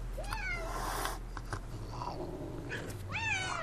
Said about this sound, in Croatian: Oko četiri ujutro tijekom madrugade podivljaju mačke.